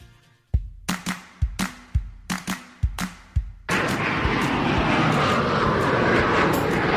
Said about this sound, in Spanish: Bueno, pues ya estamos, subidos en nuestro avión favorito, que siempre es el de Iberia Express